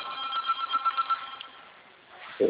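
A telephone rings in the background with a rapid, trilling electronic warble of several quick pulses over a thin, band-limited hum, then fades.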